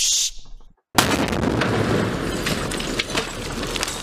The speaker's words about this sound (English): Throw that nade.